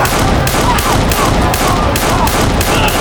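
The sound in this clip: Gunshots from two Colt revolvers emptied in a rapid fusillade: many loud, sharp cracks fired in quick, fairly even succession, with barely a pause between them.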